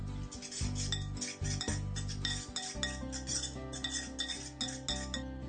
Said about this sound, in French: l'oignon, le ketchup, le tabasco, la Worcestershire sauce et mélangez le tout.